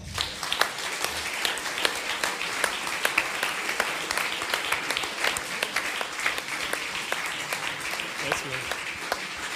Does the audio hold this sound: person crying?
no